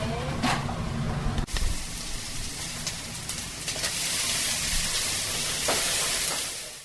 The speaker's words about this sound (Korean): 일본식 라면 가게인 이야기를 담은 라멘의 주방에서 능숙한 솜씨로 주문받은 음식을 만들어냈습니다.